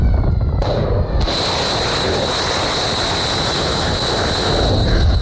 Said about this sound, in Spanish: Sonido de los ataques de esta madrugada desde portaaviones del Comando Central del Ejército Estadounidense